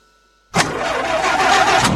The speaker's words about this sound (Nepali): होइन कतिन्जेलसम्म यस्तो बिग्रिएको गाडी चलाउनु, अब त अर्को गाडी लिनुहोस् बुढा।